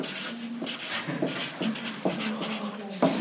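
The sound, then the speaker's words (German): Someone writes larger on a board with quick, repeated scratchy strokes. Short squeaky tones mark several of the marks, in an uneven but steady rhythm. “Okay, ich schreibe größer, Entschuldigung.”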